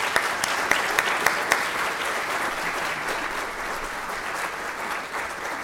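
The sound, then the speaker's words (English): Sustained audience applause greets the introduction of a university dean of agriculture and life sciences. A few sharp, distinct claps stand out early above the steady clapping, which then eases slightly toward the end. “So please join me in welcoming the Ronald P. Lynch Dean of the College of Agriculture and Life Sciences, Dean Catherine Bohr.”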